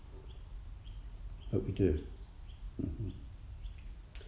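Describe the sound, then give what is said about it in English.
Birds singing outdoors, a high repeating chirp call recurring at a steady rhythm throughout, faint beneath people talking quietly. “as we sit here in this wonderful environment, and that we hear those birds singing to us through this session”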